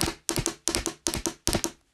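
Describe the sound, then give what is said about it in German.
Two pens tapped in rhythm on a tabletop imitate galloping horses: crisp wooden clicks fall in quick repeated groups of three, a steady, even gallop pattern with short gaps between groups. “Für das Galoppieren der Pferde nimmst du zwei Stifte und schlägst sie im Rhythmus auf den Tisch.”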